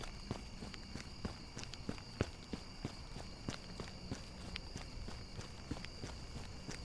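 Footsteps of someone walking, many soft, evenly spaced steps in a steady rhythm, quiet against a faint, constant background hiss.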